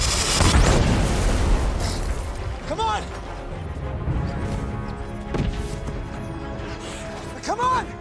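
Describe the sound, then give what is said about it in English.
A dropship explodes in a film scene: a loud, deep blast with rumbling, crashing debris that fills the opening moments and then keeps roaring, while a voice shouts briefly over the chaos. “We have to go. This dropship is about to explode. We have to go now.”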